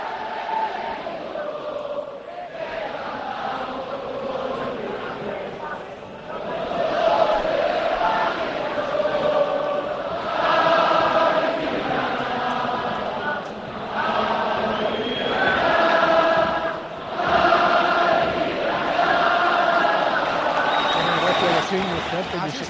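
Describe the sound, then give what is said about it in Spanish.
Football fans in the stands of the new Los Cármenes stadium sing a cappella, a massed crowd chant rolling in long sustained phrases. The volume swells and dips with brief breaks between lines. “Y esto es como suena a capela el nuevo Los Cármenes.”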